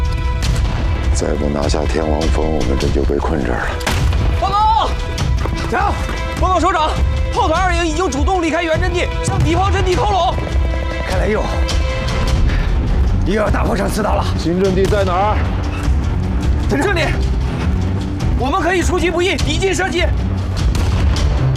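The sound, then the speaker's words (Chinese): Enemy artillery fire booms in a dense, continuous low rumble beneath loud talking voices, with heavy blasts merging into a steady roar throughout. “我攻不了去，他们的炮火太强大了。他们的炮火密度比我们高，精度也够准”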